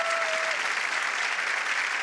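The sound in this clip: Studio audience applause for a departing contestant sounds as steady, dense clapping from many hands, even in level throughout, with a faint whistle near the start.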